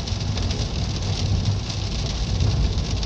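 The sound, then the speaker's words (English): Rain during a drive across a bridge in low visibility, a dense, continuous hiss over a steady low rumble, with no talk. “Now it's raining. Low visibility. It's crazy.”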